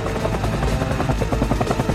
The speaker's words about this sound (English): A white helicopter hovers over the museum.